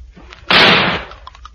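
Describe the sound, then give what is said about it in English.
A single loud gunshot fired at the top of a creature lying in a garden, a sharp blast with a short, decaying tail, heard alone. “Put your fingers in your ears. I'm going to shoot the top of it.”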